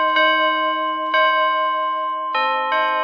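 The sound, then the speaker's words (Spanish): Church bells ring joyfully for a wedding, sounding four bright strokes whose clear, sustained tones hum between strikes, with the last two struck close together. “Las campanas de la iglesia sonaron alegremente aquel día.”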